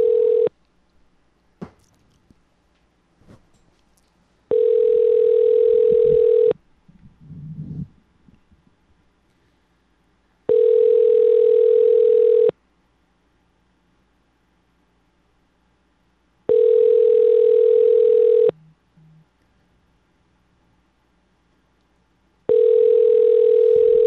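An unanswered phone call rings out as a steady electronic ringback tone. It sounds in two-second bursts, five times, with the first one cut off, separated by long quiet gaps that hold faint rustling.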